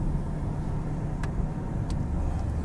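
A car driving on a road gives a steady, low, even rumble of engine and road noise, with a couple of faint short clicks over it.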